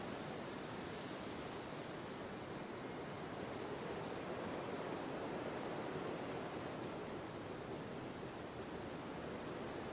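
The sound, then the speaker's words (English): Enormous waves pound a sandy beach as a continuous, low-level roar of surf. No single crash stands out, and the sound stays steady across the whole stretch. “Up ahead, the sandy beach is pummeled by enormous crashing waves.”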